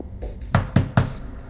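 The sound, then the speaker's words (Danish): Hard knocking on a solid iron prison cell door: three heavy, evenly spaced bangs, loud and resonant, heard alone. “Betjenten tænder og slukker lyset og banker hårdt på den massive jerndør.”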